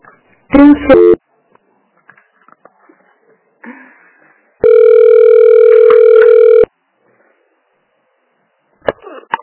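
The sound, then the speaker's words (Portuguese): Telephone tones as a call is transferred: a short burst of warbling electronic beeps, then a single long, steady ringing tone lasting about two seconds, with quiet clicks and faint noises in the gaps between. “Eu vou transferir de volta lá para elas, tá? Só um pouquinho, tá?”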